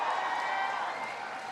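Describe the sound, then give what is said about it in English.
An audience at a public gathering with civic officials applauds in a dense, steady wash of clapping that holds its level throughout. “can everybody please give Deborah Jones a big round of applause for the wonderful introduction?”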